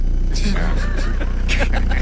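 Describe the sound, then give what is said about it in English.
A voice imitates the air buffeting inside a car with one window partly down: a low, rapid, throbbing pulse that runs steadily under wavering voiced tones. “one window's halfway down or even a little bit down messes up the whole car. But it's a, you know, it's an air pressure thing.”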